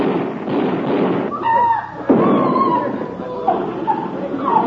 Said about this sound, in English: Collins, they shot him.